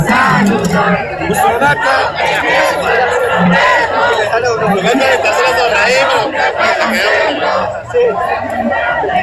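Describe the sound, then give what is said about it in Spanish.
A large crowd of people sings together loudly, many voices blending into a dense, continuous wall of chanting and shouting that holds steady through the whole clip. “Mire, mire. Mira, acá la gente está cantando.”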